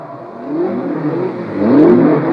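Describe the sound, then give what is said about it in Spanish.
Race cars warm up their engines before a grand prix race: a steady low engine drone with a light whir, swelling louder and revving toward the end, with no voices. “En este momento todos los autos calientan motores.”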